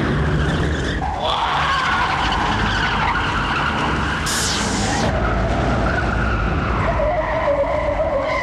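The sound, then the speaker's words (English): Tyres screech and skid as a car spins with smoking tyres, a loud continuous squeal layered over engine roar that persists throughout without letting up. “As the car spins, more and more smoke comes from the tyres.”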